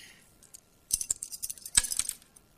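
Dice thrown in a wagered game make a short burst of small, hard clicks and clinks as they tumble and rattle to a stop. The sound is faint and quick, with no talk over it.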